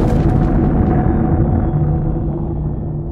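Bomb detonation sound effect: a loud, dense roaring rumble that slowly fades and darkens over a few seconds.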